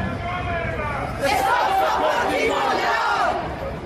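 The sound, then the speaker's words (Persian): A crowd of protesters chants slogans at a rally in Oslo, demanding accountability and regime change in Iran. The loud, sustained mass of voices swells noticeably after the first second and holds steady to the end. “آنها در این گردهمایی‌ها جمهوری اسلامی را مسئول کشتار ده‌ها هزار نفر در دهه‌های گذشته از جمله 18 و 19 دی می‌دانند و با سر دادن شعارهایی خواستار پاسخگویی و تغییر رژیم در ایران هستند.”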